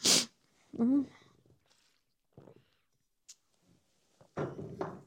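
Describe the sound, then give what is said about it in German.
A single sneeze bursts out at the start, a sharp, hissy blast, followed by quiet speech and a few soft, scattered sounds. “Oh, ich habe das Gefühl, ich muss gleich niesen. Entschuldigung.”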